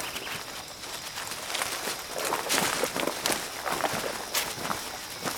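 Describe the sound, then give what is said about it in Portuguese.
Footsteps of two people walking, one following the other, a steady run of many soft, scuffing steps that overlap at an uneven rhythm, moderately loud with no voices. “Manzudo anda e Joaquim o segue.”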